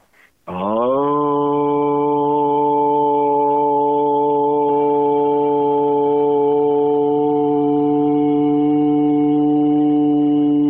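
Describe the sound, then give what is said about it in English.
One voice tones the Aramaic prayer word "Aun" as a single long, steady, low vocal note. It is held at an even pitch and loudness for about ten seconds, with a full, buzzing tone rich in overtones. “the first word from an Aramaic prayer sounds like this, Aun. And I'm just going to make one simple sound.”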